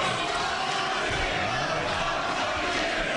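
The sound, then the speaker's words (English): An audience shouts at a mayoral general election debate, producing a dense, continuous roar of overlapping raised voices that holds at an even level throughout. “Shouting was the theme of the first general election debate in the mayor's race. You know, sometimes there are elections where. First from the audience”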